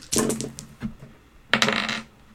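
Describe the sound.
Dice rattling as they are rolled, heard as two quick clusters of sharp clicking clatter with a single lone click between them. No voices are heard.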